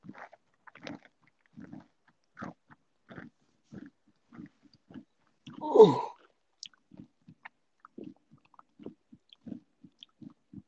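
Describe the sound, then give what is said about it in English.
Crunchy chips being eaten, giving many short, regular bites and crunches. One louder, longer crunch comes in the middle. “I'm waiting for Whataburger and I'm eating some chips.”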